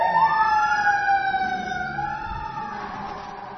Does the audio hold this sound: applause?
no